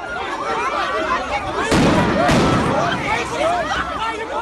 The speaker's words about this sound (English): The police fire stun grenades to try to quell the chaos.